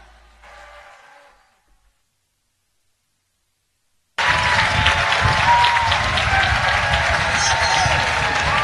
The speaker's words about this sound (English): That is the sound of a large, happy audience. The Gentleman's Gambit has just finished playing on the Creekside stage.